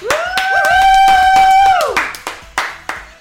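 Applause from a live studio audience in Chicago: a long, loud sustained tone that falls away at its end, then a few scattered claps that grow softer.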